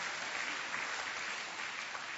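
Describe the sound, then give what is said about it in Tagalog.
A church audience applauding, dense steady clapping at an even level throughout with no pauses. “Pwede bang palakpakan natin ng Panginoon for generously giving us?”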